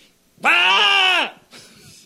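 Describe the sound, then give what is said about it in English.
A human voice imitates a dying goat with one loud, strained, quavering bleat lasting under a second. A fainter breathy sound follows it. “That sounds like a dying goat or something, doesn't it?”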